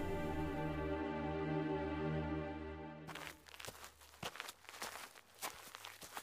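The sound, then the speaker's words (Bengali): Footsteps walking along a road begin after a sustained droning harmonic tone cuts off, then continue as many steady, evenly paced soft steps. “ওই সোনার হার নিয়ে রাস্তা দিয়ে হাঁটতে থাকে”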